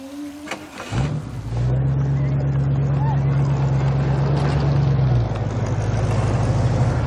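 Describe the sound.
Car engine at drag races: after a short sharp onset, a steady low engine drone holds loud and even for several seconds, then eases slightly as a rough, noisy rumble continues.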